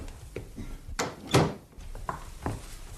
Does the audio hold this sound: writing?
no

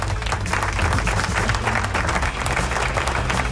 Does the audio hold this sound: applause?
yes

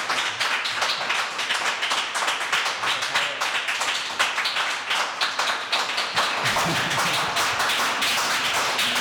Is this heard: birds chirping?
no

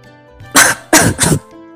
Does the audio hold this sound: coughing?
yes

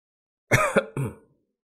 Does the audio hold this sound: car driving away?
no

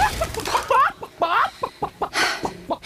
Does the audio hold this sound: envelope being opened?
no

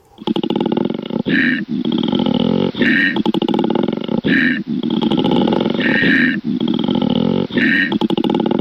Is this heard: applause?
no

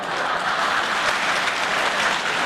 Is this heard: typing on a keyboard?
no

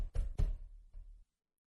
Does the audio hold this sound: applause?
no

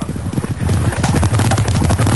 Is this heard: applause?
no

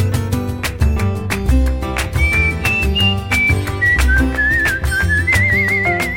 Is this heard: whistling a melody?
yes

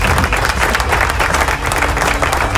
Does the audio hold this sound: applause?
yes

